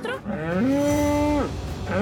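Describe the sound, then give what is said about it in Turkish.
Cattle mooing as a herd of cows passes, straying from its usual route behind two donkeys: one long, loud, low moo held for over a second, with a second moo starting just at the end. “İneklerin buradan geçmemesi gerekiyor ama sorun yok.”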